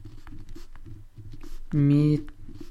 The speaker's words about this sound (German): Ich werde euch das schon mal in die Shownotes packen. Schreibe ich mir jetzt eben gleich auf.